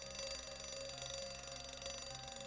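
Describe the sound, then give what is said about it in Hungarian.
An alarm clock buzzes with a faint, continuous, rapidly pulsing electric drone that stays steady throughout, with no voices over it. “Ki berreg? Én, vagyis a Vekker.”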